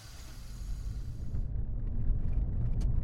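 A car pulls away from a camp, its engine a deep, continuous rumble that builds slightly as it drives off, with no voices.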